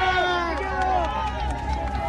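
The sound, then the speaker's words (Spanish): Crowd bustle of people walking and pressing along with president-elect José Antonio Kast, a dense mix of movement and babble with a voice talking loudly over it throughout. “El audio ambiente que escuchas, Katy, que escuchan auditores. Sí. Hay gente que nos empuja porque acá van avanzando con nosotros, en la medida que nosotros también tratamos de seguir el paso del presidente electo José Antonio Kast.”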